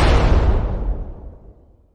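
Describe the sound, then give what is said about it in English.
Bomb explosion sound effect: a single loud, deep boom whose broad roar gradually fades away over about two seconds. “Here comes the at-home bomb noise.”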